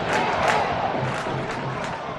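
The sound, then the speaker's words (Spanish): A football crowd at a Huesca match chants "Sí se puede", a loud massed roar of voices that swells in rhythmic pulses and carries on without a break. “¡Sí se puede! ¡Grita el público!”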